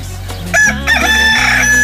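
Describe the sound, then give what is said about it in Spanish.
A rooster crows at the start of the morning, a loud, drawn-out call with a harsh, wavering tone that swells in after a brief quieter opening and holds to the end. “Qué bonito es despertar con el canto del gallo, poco no, ¿eh?”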